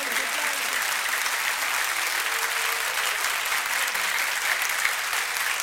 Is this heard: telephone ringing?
no